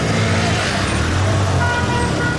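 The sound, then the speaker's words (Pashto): Cars rumble past a vehicle search checkpoint near Ghazni, Afghanistan, in a loud, continuous wash of engine and road noise. A low, steady hum holds under it without a break. “د غزنی شهر امیر محمد خان کلا سیمه کې تلاشی مرکز ته چیرمه یو شمیر موټران ولاړ او ډیرای نور لا تلاشی کولو څخه ورسته تیریږي”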